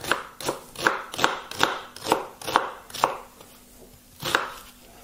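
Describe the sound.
An onion that is not hard is chopped with a knife: a steady run of crisp, evenly spaced chops, then a short pause before one more chop.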